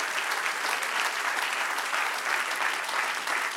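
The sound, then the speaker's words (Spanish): Congregation applause during a church sermon, a full, continuous roar of many clapping hands that stays steady and fairly loud throughout. “Oh, apláudale si lo va a aplaudir.”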